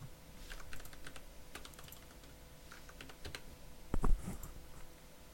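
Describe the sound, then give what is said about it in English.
Typing on a computer keyboard: many light, quick keystrokes patter at an uneven pace, with a louder cluster of clicks near the end. “I just typed it into Google.”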